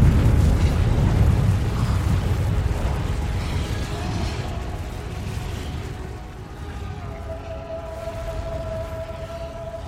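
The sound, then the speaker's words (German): Volcanic explosion of a mountain over 4000 metres high: a loud, deep and continuous roaring rumble, heaviest in the low end, that eases only slightly over its length. “Explosion sprengt der über 4000 Meter hohe Berg sich gleichsam selbst in die Luft. Feuersäulen schießen in die Höhe, vereinen sich schließlich zu einem flammenden Inferno, das tagelang wütet.”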